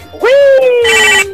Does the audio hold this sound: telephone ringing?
yes